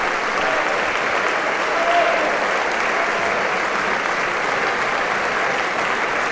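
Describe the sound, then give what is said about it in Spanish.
An ovation for the Camerata musicians and their conductor at a tango concert: thick, sustained applause from a large audience, loud and uniform with no break for the full six seconds. “y a los músicos de Camerata que se ponen de pie para recibir la ovación junto con el maestro. Una noche de tango.”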